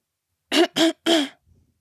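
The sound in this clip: A voice imitates a woman's throat clearing with three quick, rough bursts in a row, the last slightly longer, followed by a faint trailing breath.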